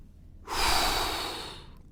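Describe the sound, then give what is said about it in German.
A man drops into his armchair and lets out a deep breath: one long, breathy rush of air that starts abruptly, swells, then slowly fades away over about a second. “lässt sich in seinen Sessel fallen und atmet erst einmal tief durch.”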